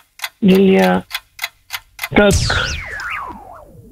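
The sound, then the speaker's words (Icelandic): A quiz clock ticks after being started, with sharp, regular ticks in quick succession, a sustained tone beforehand and a falling electronic sweep near the end. “nú er klukkan komin í gang”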